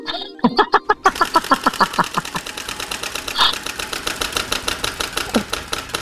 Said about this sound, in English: Let's spin the the wheel, shall we?